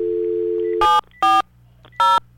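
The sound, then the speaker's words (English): A telephone is dialed: a steady dial tone holds, then stops as three separate touch-tone beeps sound at an even pace. “Is your phone about to ring?”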